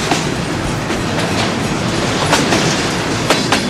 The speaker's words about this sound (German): Beim Lange fährt in seinem Bad gerade der Güterverkehr hier durch